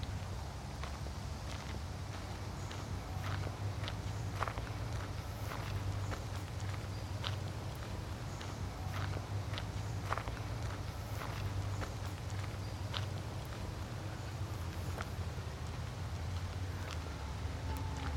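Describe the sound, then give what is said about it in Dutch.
Footsteps walk along a small, dark lane running parallel to a larger path, producing many faint, evenly spaced steps in a steady walking rhythm over a quiet background. “En dan gaan we rechtsom en dan lopen we door het donkerste laantje van de Nieuwe Ooster.”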